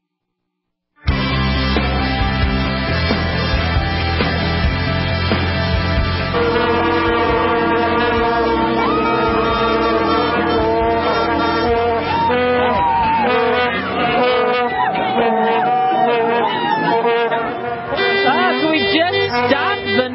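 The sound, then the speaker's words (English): Vuvuzela horns blown by a World Cup crowd in South Africa. A loud, continuous buzzing drone of many horns starts after a second of silence and carries on unbroken, with layered overlapping pitches. “Yeah, the Vuvuzelas are making people crazy, but FIFA said we're not doing anything about it.”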